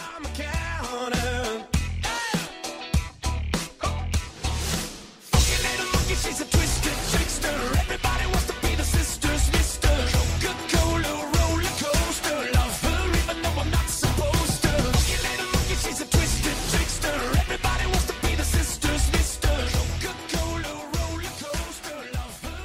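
A rock song plays loud and dense, with driving drums and distorted guitars. A choppier, sparser opening breaks off into a full, steady pounding beat that carries on to the end without talk.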